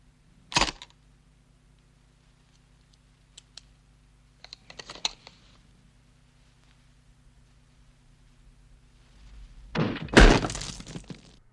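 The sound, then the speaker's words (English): Rifle bullet striking a watermelon that bursts apart: a sharp crack, a few faint clicks and a softer clatter, then a loud, noisy splattering burst near the end, with no talk. “That watermelon just flew apart.”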